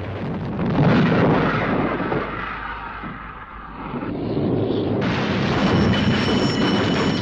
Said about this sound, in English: The bridge has received a direct hit. The Amethyst ploughs on under ferocious fire.